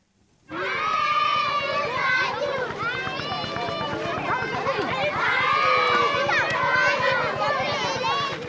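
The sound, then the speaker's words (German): Children playing, laughing, singing and shouting in a school playground between long school buildings: a loud, dense, continuous mix of young voices that starts abruptly and holds steady throughout. “Kinder toben über den Pausenhof zwischen den langgestreckten Schulgebäuden. Es wird gelacht, gesungen und geschrien. In einem großen Kreis wird getanzt.”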